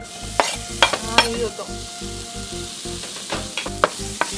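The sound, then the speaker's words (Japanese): Ginger fries in butter in a pan over gentle heat, giving a soft continuous sizzle. Brief scraping and clattering bursts from stirring come through at irregular moments. “今回は油ではなくてバターで作っていきますね、 はい。 ここで生姜を炒めて香りを出したいので、あまりこう火は強くしない方がいいかと思います。生姜入れていきます。”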